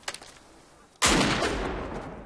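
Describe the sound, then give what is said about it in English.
A weapon fires a single gunshot: a sudden loud blast that breaks a near-quiet moment, then a long rumbling tail that fades slowly. “Discharge your weapon. Do it!”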